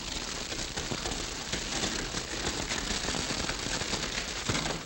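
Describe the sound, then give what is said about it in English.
A fire set among trees burns and crackles, a dense, unbroken stream of fine pops and snaps at an even level from start to finish, with no voices. “We better hold them off till this fire gets too hot to cross.”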